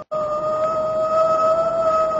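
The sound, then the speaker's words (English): A police car siren sounds as a steady, unwavering pair of high tones that hold their pitch and loudness for about two seconds with no other sound. “Give him the siren. That I will.”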